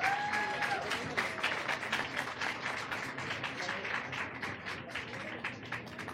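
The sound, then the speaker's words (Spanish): Dense applause from a crowd of women marking International Women's Day at a rally, with many overlapping claps at a steady level across the whole clip. “un gran aplauso aquí a todas las compañeras otra vez, por favor.”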